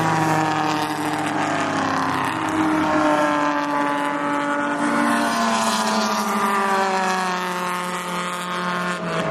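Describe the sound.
Race cars drive fast under yellow caution flags, producing a continuous, loud engine drone with layered harmonics; one engine note drops lower partway through.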